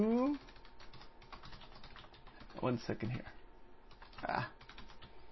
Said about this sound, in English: All right, hold on a second. Let me write that down.